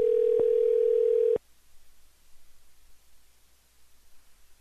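A steady telephone dial tone hums while someone calls a person back. It holds for just over a second, broken by a brief click, then cuts off abruptly, leaving only faint hiss and light rustling.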